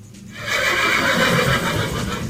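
A horse neighs in one loud, sustained whinny lasting about two seconds, heard alone with no voices.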